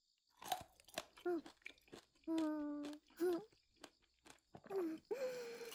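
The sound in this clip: Food is chewed with crisp, crunchy bites in short bursts, interspersed with voices talking.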